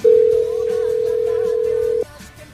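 A telephone tone sounds while a number is being called: one steady, unbroken mid-pitched tone that holds for about two seconds and then stops, leaving only a faint background hiss.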